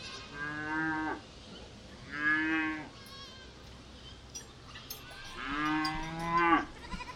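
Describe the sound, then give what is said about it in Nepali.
Cows mooing while grazing in a meadow: three drawn-out, low, harmonic moos separated by quiet pauses, the last one the longest and loudest. “मैले त गाई बाख्रा चरिरहेको देखेँ miss.”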